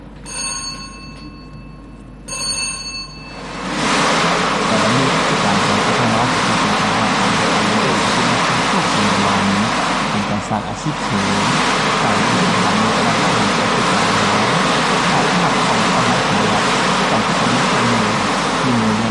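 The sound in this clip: Drums spin together at a lottery draw, the second stage of a Thai national lottery. A short ringing tone comes first, then a loud, steady rumbling whir with dense rattling carries on without a break.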